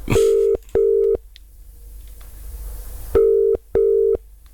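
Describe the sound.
Telephone ringback tone while waiting for someone to answer: two short, steady tone bursts, a pause filled with faint hiss, then two more bursts, clear and alone.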